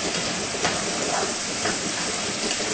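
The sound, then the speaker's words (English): Steady sizzling hiss of mushrooms sauteing in a pan with no water added, a continuous, fairly loud crackle with small flickers of brighter spatter throughout and no voices. “So we're gonna let it saute in there.”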